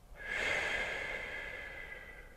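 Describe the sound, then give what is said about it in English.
Slow breathing during a meditation exercise, drawn in through the nose and let out. It is a single soft, airy breath that swells and fades gently, heard alone. “And take two more breaths just like that one. Inhale through your nose. Exhale, let it go.”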